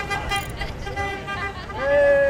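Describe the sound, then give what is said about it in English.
Car horns honk from passing cars outside a house in California where solar panels are being installed on the roof. A steady, clear horn tone sounds near the end over a bed of traffic noise. “People honk their car horns as they drive past this house.”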